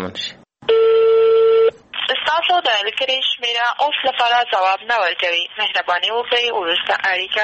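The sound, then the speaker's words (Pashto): A phone call to the governor of Maidan Wardak, General Muzafaruddin Yamin, rings unanswered: one long, steady ringing tone sounds, then a voice talks continuously. “وروسته مو بیا هم تر شلو واره زیاته اړیکه ونیوله خو ځواب یې ورنه کړ. دا د میدان وردګو ولایت د والي جنرال مظفر الدین یمین شمیره ده.”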